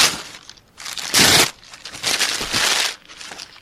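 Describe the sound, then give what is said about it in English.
A paper-ripping sound effect, triggered by a button to mimic tearing up mail, plays as several loud, harsh bursts of tearing noise separated by short gaps, with the loudest rip early on. “going to push the button to make you think I'm ripping it. Okay, rip.”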